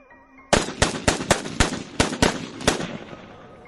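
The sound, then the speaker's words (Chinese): Three guns fire dozens of bullets at a hidden door: a rapid burst of many loud, cracking shots in quick, uneven succession, alone. “三把枪、几十发子弹将那道暗门瞬间打烂，但对那个人没什么效果”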